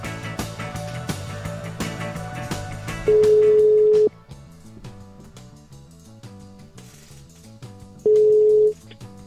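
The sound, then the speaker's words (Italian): Ringback tone of an outgoing telephone call sounds twice as a steady, loud, single-pitched beep about a second long, separated by a pause, over continuous background music. “proviamo a chiamare Memi.”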